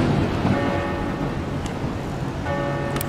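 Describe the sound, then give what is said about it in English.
Bells ringing during a storm in a video game: resonant tolling tones strike near the start and again later, sustaining over a steady roar of wind and storm noise. “Walk towards the bells.”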